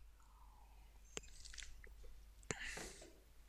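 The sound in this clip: A quick sip of coffee, faint and brief: two sharp mouth clicks, then a short wet slurping hiss, with no talk over it.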